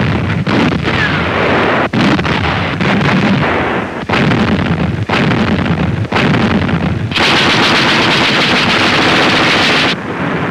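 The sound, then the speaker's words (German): German naval anti-aircraft guns fire at low-flying torpedo planes in a dense, continuous, loud barrage of rapid shots and heavy reports, with wind buffeting the microphone throughout. “Feuer auf Torpedoflugzeuge, die im Tiefflug angreifen.”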